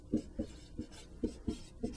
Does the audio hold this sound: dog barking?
no